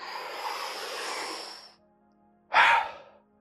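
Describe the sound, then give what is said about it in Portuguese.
A deep inhalation followed by a release of breath during a guided breathing exercise: a long, steady, airy draw lasting nearly two seconds, a short pause, then a brief, louder rush of exhaled air. “vou-te propor que inspires totalmente e apenas deixes ir, sem a expirar totalmente, algo como...”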